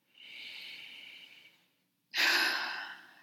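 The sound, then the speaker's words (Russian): A deep breath during a guided meditation: a soft, airy inhale lasting over a second, a short silence, then a louder, breathier exhale. “сделай глубокий вдох и выдох. И еще раз вдох и выдох.”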